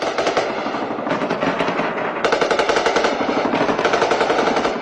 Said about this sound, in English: Videos even emerged of the president under fire.